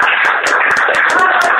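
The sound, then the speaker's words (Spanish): A few people clap in a studio to applaud a guest. The claps are rapid and uneven, with a voice heard over them. “Y para cerrar, un aplauso para el invitado.”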